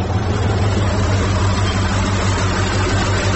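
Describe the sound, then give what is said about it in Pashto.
A truck's engine rumbles on a desert road as it arrives, giving a loud, steady, low drone that holds evenly throughout with no voices. “یوه لارۍ خو راغله، همدا لارۍ ته به لاس ورکړم.”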